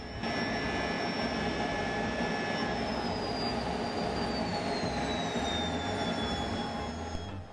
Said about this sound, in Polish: Przenosimy się do Arizony, aby zobaczyć wspólne lądowanie dobrze nam znanych F-16 na jednym pasie.